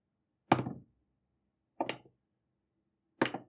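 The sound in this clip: Three separate dice rolls for attack rolls at a tabletop game, each a short knocking clatter with a quick decaying tail, evenly spaced with silence between them.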